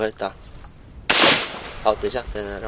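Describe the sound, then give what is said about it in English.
A single loud crack of a rifle firing real bullets cuts in sharply and decays quickly, with brief voices before and after it. “A real rifle this time, firing real bullets.”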